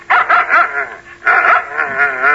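A dog gives a quick run of high, harmonic yips, pauses briefly, then lets out a longer wavering whine. The sounds are loud and clear, with no talking over them.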